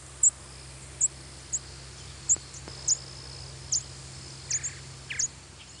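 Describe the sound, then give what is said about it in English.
Bird flight calls, brief buzzes and thin whistles given by birds flying overhead: a series of short, high, faint chirps spaced irregularly over a steady low hum. “Flight calls are the cryptic little buzzes and whistles that are emitted by birds as they fly through the air.”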